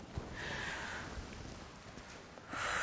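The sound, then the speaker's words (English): A group of people takes a deep breath together: a soft, airy rush of inhaling that swells again near the end, faint and with no talk over it. “Now, I want everybody to take a really deep breath with me.”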